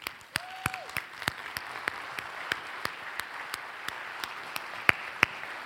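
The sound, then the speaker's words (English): A church audience gives a visiting minister a standing-ovation welcome, with steady applause, sharper individual claps standing out at a regular beat, and a brief whistle early on. “if you're new here, we give standing ovation welcomes to ministers that are visiting. Would you give a K-first welcome to Matt Foss this morning?”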